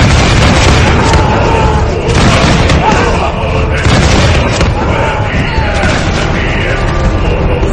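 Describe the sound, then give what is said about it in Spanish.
A volley of arquebus gunfire in a battle at Jemmingen, heard as heavy booming shots buried in a loud, dense, continuous din that barely lets up. “hasta los arcabuceros desmontaron para unirse a nosotros, disparando con todo lo que tenían. ¡Fuego!”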